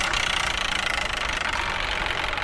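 A spinning prize wheel clatters with rapid, even ticking that runs steadily through the whole stretch without slowing, loud and continuous with no talking over it.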